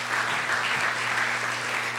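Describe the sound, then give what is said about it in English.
Sustained audience applause welcoming a speaker onto a stage: an even, dense wash of many people clapping, moderately loud and unbroken, with no talk over it. “Ladies and gentlemen, please bring him up with a round of applause.”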